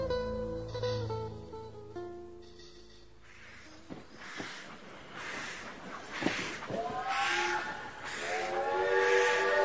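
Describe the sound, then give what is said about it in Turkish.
A steam train whistle sounds at a railway station as a steady, multi-toned blast lasting a few seconds, followed by a few sharp hissing bursts of steam. “Gardım şimdi. Tren bekliyor.”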